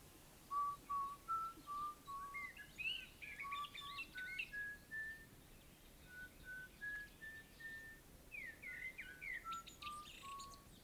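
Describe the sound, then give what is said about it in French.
A person whistling a lilting tune of clear tones that step and slide up and down, broken by short chirpy trills, over a steady background hiss. “Hey, tu siffles bien.”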